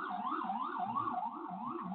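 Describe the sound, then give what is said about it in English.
Sirens wail along a New York City street, a loud continuous siren repeatedly rising and falling in pitch in a steady, rolling cycle throughout, with no talk. “pardon me, I'm in New York City, like I said, we got a little extra sirens today.”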